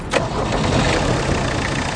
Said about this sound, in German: Um an Geld zu kommen, will er sein Auto verkaufen. Mach mal den Motor an.